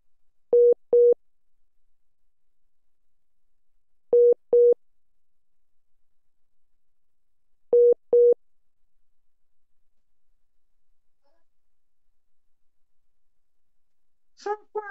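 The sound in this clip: Busy tone after a dropped phone call: three pairs of short, steady mid-pitched beeps spaced a few seconds apart over silence, with a voice starting briefly at the very end.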